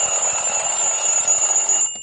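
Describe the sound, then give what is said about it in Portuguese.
An alarm clock rings continuously, a loud, shrill and steady metallic tone that holds for about two seconds before trailing off at the end. “mas é hora de chamar o nosso despertador. Olha o despertador aí”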